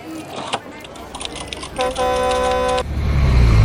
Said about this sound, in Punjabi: ਆ ਬੱਸ ਕਿਹਦੀ ਆ ਗਈ ਹੁਣ?